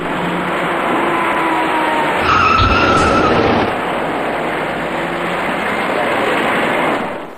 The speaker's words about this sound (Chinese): 这位骑车人被一辆快速开来的小客车撞翻在路面上